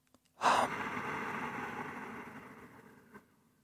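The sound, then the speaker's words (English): A slow, deep breath in a meditation demonstration, heard as a soft, airy rush that swells quickly and then fades gradually over a few seconds. A faint click comes near the end. No one speaks. “carefully to your own breath while I demonstrate the subtle sound that exists in the breath. On inhalation, on exhalation,”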